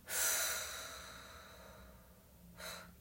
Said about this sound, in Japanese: 背筋伸ばして、一度、体の空気吐きます。